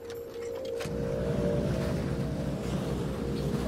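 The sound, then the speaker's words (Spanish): A boat underway on the water, carrying agents during an operation. Its engine drones in a steady low rumble with a constant hum, rising after a quiet start and then holding evenly over wind and water noise. “Todo parecía normal en nuestro bote.”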